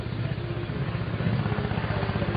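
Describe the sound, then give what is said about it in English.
A helicopter passes over a college baseball game, giving a steady low rhythmic thudding of rotor blades with a constant engine hum that runs through the whole moment at moderate level without talk. “What is this? Is this a helicopter now coming over?”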